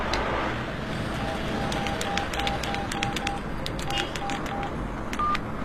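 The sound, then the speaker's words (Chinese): Mobile phone keypad tones sound as a number is dialed, a quick series of short, faint, even beeps over a steady wash of background noise. “打他的手机吧。”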